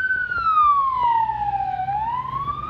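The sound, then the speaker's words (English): An ambulance siren passes with a slow, loud wail, its tone sliding steadily downward before turning back up toward the end, heard alone over a faint low road hum. “I don't know if that's an ambulance or it's the police. Yeah, I can't tell the difference because apparently, it's an ambulance actually. So let's just wait for it to pass.”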